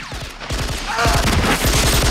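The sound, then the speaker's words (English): Machine-gun fire aimed through a window at police officers outside: many rapid shots in several loud, clattering bursts, each a quick run of sharp reports, with no voices. “then takes a machine gun for himself and fires through a window at the police officers outside.”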